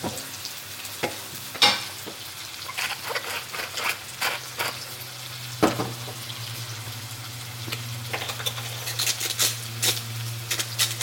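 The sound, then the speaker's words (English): Aubergines fry in a pan with a steady, crackling sizzle and scattered sharper pops, while intermittent scraping from stirring runs over a low, constant hum. “So give these a fry. Once they've softened a little, then add some seasoning.”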